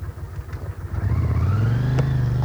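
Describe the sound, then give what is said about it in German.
A car driving off: the engine starts as a low, uneven rumble, then swells into a louder, steady drone whose pitch climbs gently as the vehicle pulls away. “Er setzt sich ins Auto. Sie fahren.”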